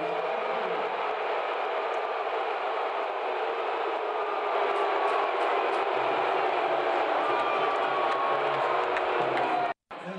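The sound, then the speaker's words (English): Friar fans in the AMP arena in Providence react loudly as Georgetown head coach Ed Cooley is introduced at a basketball game. A dense, sustained crowd roar holds steady for about ten seconds and then cuts off abruptly. “The Friar fans were ready for that moment, and they were in full throat to welcome Ed back to Providence in their own special way.”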